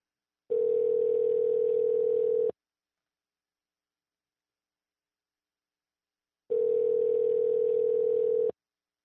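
Ringback tone on an unanswered outgoing telephone call: two long, steady, even beeps, each about two seconds, separated by a long silent gap, with no voices.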